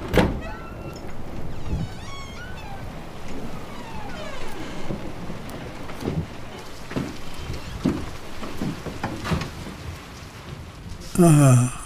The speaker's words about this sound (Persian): بهترین جا برای خلاص شدن از بارونه.